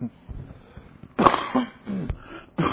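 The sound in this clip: Coughing from someone speaking into a microphone: a few harsh, breathy bursts with quieter throaty sounds between them.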